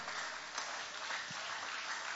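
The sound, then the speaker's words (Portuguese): A church audience applauds during a worship service. The even, continuous clapping stays fairly soft and muffled throughout, with no clear breaks. “aplaude o nome de Jesus com alegria.”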